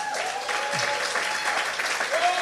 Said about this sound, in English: if you want to clap, go ahead, clap. Be generous with your clapping. I'm not sure you are paying to clap. And maybe this way got it first. Come on, clap for the Lord.